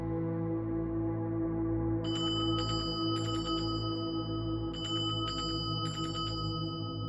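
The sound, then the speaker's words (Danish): An assembly bell calling people down to a chapel rings in two clusters of quick, bright metallic strokes over a steady low droning hum that runs through the whole stretch. “Kort tid efter, så ringer klokken. Det er en forsamlingsklokke.”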